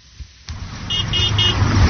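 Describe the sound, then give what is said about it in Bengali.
Hydraulic car horns honking on a busy road in Dhaka: three short, high, piercing horn blasts in quick succession over a steady traffic rumble that grows louder. “রাজধানীর যে কোনো ব্যস্ত সড়ক এখন যেন এক একটি শব্দ তৈরির কারখানা। হর্ন বাজানো নিষেধ এমন সাইনবোর্ডের ঠিক নিচেই বাজানো হচ্ছে উচ্চ শব্দের হাইড্রোলিক হর্ন।”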